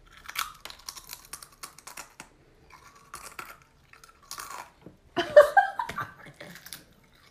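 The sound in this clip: Potato chips being crunched for ASMR: crisp, irregular crackles and snaps come in scattered bursts, mostly faint, with a louder cluster near the end.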